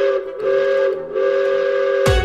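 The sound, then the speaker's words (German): An amusement park panorama railway train whistles on departure with a steady, bright, harmonic-rich tone held in two long blasts separated by a brief dip, then a sudden loud burst at the end. “Danach geht's zur Panoramabahn. Die hält nämlich auch hier in Russland und fährt uns zu unserem nächsten Stop auf unserer Tour, quer durch den Europapark. Und Abfahrt.”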